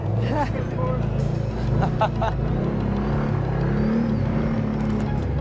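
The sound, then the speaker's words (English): A vehicle on a very bumpy ride to a tree planting site gives a continuous low rumble, while several people talk over the noise. “Will was kind enough to stop and bring the camera crew along for a very bumpy ride to the plant site. It's a bit crazy in here,”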